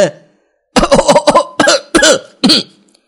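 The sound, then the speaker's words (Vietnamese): Violent, repeated coughing from a man choking on mooncake. Many harsh, loud bursts come in quick succession after a short silence, with some bursts running close together. “Đái Bất Phàm bị bánh trung thu làm cho mắc nghẹn, bỗng nhiên ho khan kịch liệt, không ngừng đánh ngực.”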